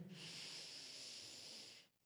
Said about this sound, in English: Take a deep breath with me in